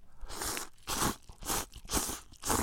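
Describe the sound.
Loud, crisp crunching as someone bites into and chews spicy chili-laden food, coming in a few regular bursts of crackly chewing with no talk.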